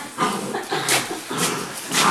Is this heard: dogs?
yes